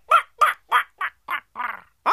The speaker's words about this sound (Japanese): いやだからカーカー言われてもこっちたらさっぱりわからねんでん。